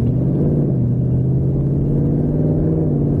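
Deep engine rumble from a Ford Mustang with a 10-speed automatic gearbox, a loud, low droning tone that holds fairly even from start to finish.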